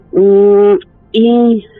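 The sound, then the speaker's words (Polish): A pigeon visiting a small house near Kutno, Poland, coos twice: two low, steady, hooting notes of similar length, separated by a short pause and heard alone. “mamy znów gołębia, który do nas przylatuje”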